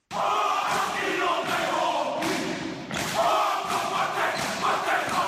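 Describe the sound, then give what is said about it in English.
A Māori haka war cry is performed at halftime of a basketball tournament in Burnaby, British Columbia, by a New Zealand team. Loud unison shouted chanting comes in bursts, accompanied by heavy thuds of stamping or slapping. “A traditional fight song was performed at halftime of the tournament in Burnaby, British Columbia, by the Moira basketball team from New Zealand, who sang the haka, or war cry, that has been in the Moira people's culture for the past century.”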